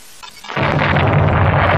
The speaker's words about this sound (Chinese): 是敌人乱打炮。坏了，绳子给打断了一股。